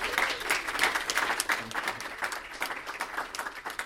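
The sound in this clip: Applause from an audience welcoming a guest speaker at a live talk; fairly faint, dense clapping runs steadily throughout with no voices on top.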